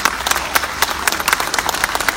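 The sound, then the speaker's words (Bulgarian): Audience applause at an information technology event as partner companies are announced, a dense, steady patter of many hands clapping that stays loud and even throughout. “Аплодирайте, това са наши партньори.”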